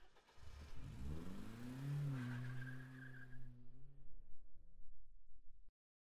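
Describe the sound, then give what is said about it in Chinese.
A car engine starts and drives off, its revs climbing in pitch and holding before fading away, then cutting off abruptly; the sound is faint overall. “走，开车，我们回家。”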